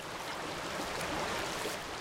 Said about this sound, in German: Der Ausfluss der Kläranlage Osnabrück. Hier fließt das gereinigte Wasser in einen Fluss, die Hase.